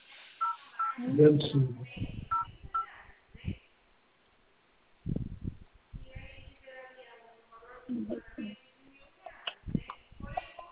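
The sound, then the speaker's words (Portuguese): Telephone keypad tones as a caller enters an ID number on a bank's phone line: a series of short electronic beeps mixed in with people talking, with a brief quiet gap partway through. “digita para mim o número do seu CPF ou CNPJ. Pode digitar.”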